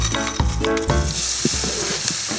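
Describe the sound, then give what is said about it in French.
Flaked almonds sizzle in a hot dry pan with no fat, a steady frying hiss broken by a few light stirring knocks. “je vais encore profiter, ça c'est pour le dressage final, de saisir mes amandes effilées dans la poêle bien chaude, sans graisse”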